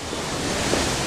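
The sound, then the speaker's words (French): Water from the Trevi Fountain in Rome splashes and rushes as a steady, dense wash of noise, with no clear separate events during about a second. “C'est le bruit de l'eau qui vous guide quand tout à coup, elle surgit au bout d'une ruelle.”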